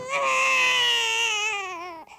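A baby cries in one loud, sustained wail of about two seconds. The tone is bright and harmonic, its pitch sagging slightly before it breaks off abruptly.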